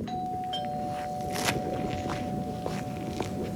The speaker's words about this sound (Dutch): Ik ga maar even aanbellen.